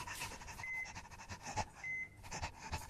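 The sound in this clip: A dog pants in rapid, faint, rhythmic breaths, and two short electronic beeps sound between the breaths.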